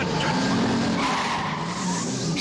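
A car overtakes on the road, producing a loud, continuous engine drone mixed with rushing tire and road noise that stays fairly level throughout.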